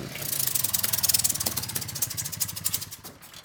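Moped engines run with a buzzing, sputtering rattle of rapid pulses, fairly loud at first and then fading toward the end.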